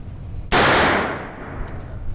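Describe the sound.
A single loud gunshot from a machine gun fired one round per trigger pull: a sharp, explosive crack followed by a long decaying tail, with quiet background before and after.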